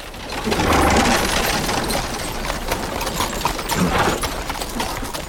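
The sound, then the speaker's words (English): Horses and a carriage laden with chests ride past through a forest, a steady rhythmic clatter of hooves with rolling wheels. The sound swells early and stays loud. “quickly hides when Isabella and a line of guards ride past, a carriage laden with chests at the rear”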